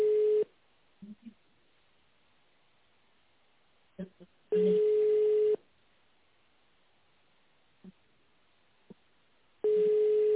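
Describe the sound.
A telephone ringback tone sounds while the caller waits for a secretary to answer: steady mid-pitched beeps about a second long, separated by roughly four seconds of near silence with a few faint clicks, heard through a narrow phone line.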